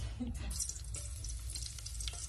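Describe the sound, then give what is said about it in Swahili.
Onion frying in oil in a cooking pot on the stove gives a quiet, steady sizzling hiss with scattered faint crackles over a short moment. “Utaweka sufuria jikoni, utaweka mafuta, utaweka kitunguu, utakaanga kitunguu.”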